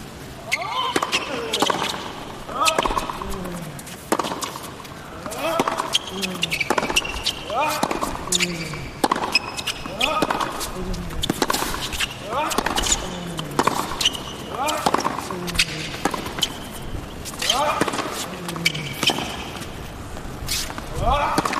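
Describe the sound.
A tennis rally with Alcaraz serving first: many sharp, evenly spaced ball strikes and bounces pop out in a steady back-and-forth rhythm under continuous commentary speech.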